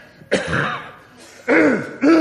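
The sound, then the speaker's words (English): A woman clears her throat and coughs in a kitchen, with a few short, harsh, raspy bursts separated by brief pauses, fairly loud and without talk. “clear her throat and cough”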